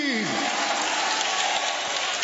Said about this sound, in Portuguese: Pode aplaudir ao Senhor.